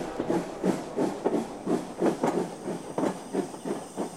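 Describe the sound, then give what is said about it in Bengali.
A train pulling out of a station, with a steady, rhythmic chugging pulse over a constant hiss, moderately loud and heard alone. “আমার ব্যর্থ চেষ্টার পরিহাস করতে করতে ট্রেনটা station থেকে বেরিয়ে চলে গেল।”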